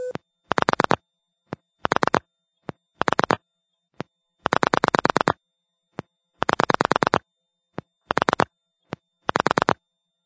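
Pulse dialing of a seven-digit number on a telephone line: seven rapid bursts of buzzy clicking pulses of differing lengths, separated by single sharp clicks, with no voices.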